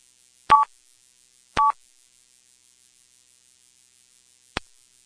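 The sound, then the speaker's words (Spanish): Voicemail beeps after a recorded greeting: two short, mid-pitched tones about a second apart, then near silence until a single faint click. “Por favor, deja un mensaje después del tono.”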